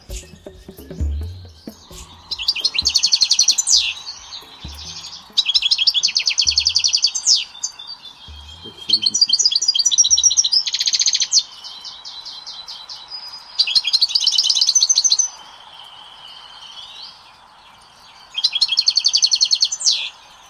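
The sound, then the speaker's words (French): A European goldfinch sings in a recording, giving five bursts of bright, rapid, twittering high-pitched phrases separated by short pauses, over a faint constant hum. “Je vous ai enregistré, si vous voulez, le chardonneret de...”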